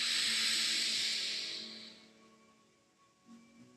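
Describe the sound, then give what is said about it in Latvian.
A slow, deep inhale during a guided meditation breathing exercise: a loud, airy hiss for about two seconds that gradually fades into near quiet, followed by a faint soft rustle. “Lēn, lēn izelpa. Dziļi, dziļi elpa.”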